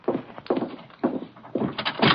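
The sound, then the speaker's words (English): Knocking at a door: a few dull, hollow thuds spaced about half a second apart, fairly soft, with no voices. “Someone at the door.”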